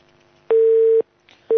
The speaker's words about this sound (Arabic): معنا اتصال.